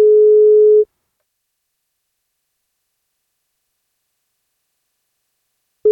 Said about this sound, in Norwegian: Vi får ringe og høre om vi får tak I Kristoffer eller Sandra da.